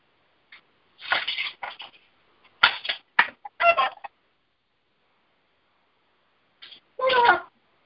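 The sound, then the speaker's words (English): Roosters call in short, harsh bursts. A cluster of calls comes first, then a pause, then a final call. “it's my roosters and Mr. Legacy”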